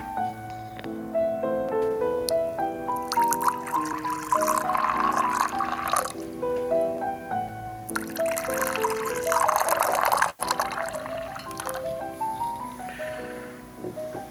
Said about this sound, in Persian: مرد روی یکی از تخت‌های مخصوص مشاوره نشسته و دکتر که مردی میان سال است در حال ریختن چای برای هر دویشان می باشد.